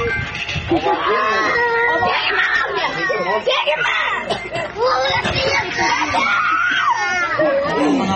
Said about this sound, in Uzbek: Ayol zo'ravonlarni qarg'aydi. Uning bolalari chirillab yig'laydi.